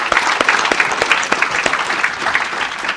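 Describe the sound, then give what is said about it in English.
Church audience applauding: dense, loud, steady clapping from many hands, sustained without a break for about three seconds. “Give the Lord a hand. Praise God, brother.”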